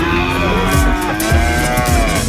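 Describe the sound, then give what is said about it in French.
Cow mooing: a sustained, low, droning moo with a rich harmonic tone that lasts about two seconds over steady background noise. “Est-ce que c'est un bœuf ou une vache là? C'est une vache.”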